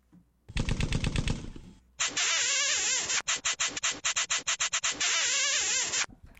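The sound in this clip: Machine-gun style gunfire sound effects in a song: a short, rapid burst of shots, then after a brief gap a longer stretch of many loud, chattering volleys separated by quick pauses.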